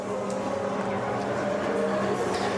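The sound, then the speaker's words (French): Steady engine drone from the Cadillac number 38 race car as it drives back along the pit lane toward the pits, a continuous, even rumble with no distinct passes or gear changes. “La Cadillac 38 qui va regagner les stands avec les images de Tanguy, Gabriel.”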